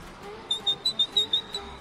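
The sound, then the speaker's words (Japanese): A carrier pigeon sound effect announces a listener message with a quick run of short, high, whistle-like chirps, faint and evenly spaced. “あ、もう一話電書バトが飛んでまいりました。”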